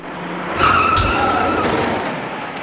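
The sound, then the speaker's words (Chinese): Tires squeal as a dark compact car skids into the back of a stopped blue compact car at a city intersection. A sustained high screech is joined by a brief low thump partway through, then the noise fades. “由于前方的车辆行驶缓慢，行驶中的那辆蓝色小客很自然地停了下来，可它刚刚停稳，跟在后面的深色小客便撞了上来”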